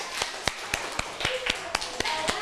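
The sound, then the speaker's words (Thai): Children clap their hands during a classroom exercise, making a quick, even series of many sharp claps at a steady rhythm over a hissy background. “เด็กๆปรบมือกับตัวเองหน่อย”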